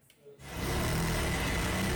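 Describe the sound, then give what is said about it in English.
Steady whirring drone of sewing machines stitching Egyptian national flags in a busy Cairo workshop. The motor hum starts after a brief quiet moment and then runs loud and unbroken. “The deeper Egypt go into this World Cup, the busier these sewing machines become. Inside this Cairo workshop, they can't make the national flag quick enough.”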